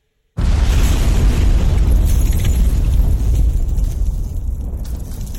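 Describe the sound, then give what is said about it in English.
A pipe bomb explosion in a firefight: a sudden loud blast that swells into a broad, sustained rumbling roar lasting several seconds and easing slightly toward the end. “I threw in a freaking pipe bomb!”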